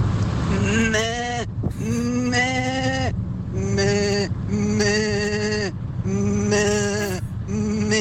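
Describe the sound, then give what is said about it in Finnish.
Sheep bleat repeatedly in loud, nasal, wavering calls, each lasting about a second and separated by short pauses, continuing steadily throughout. “Siis laittakaa lisää näitä lampaita, please.”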